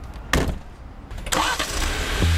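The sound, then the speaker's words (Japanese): A Jeep Wrangler engine starting: a couple of sharp cranking bursts, then the engine catches into a steady, fairly loud running rumble, with no talk. “ジープラングラーに乗って普段からよく行くポイントに向かいます。”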